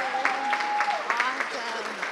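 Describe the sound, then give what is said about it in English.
Audience applause rings out in a steady wash of clapping, with a voice heard over it. “Come on, give it up for Megan Gardner.”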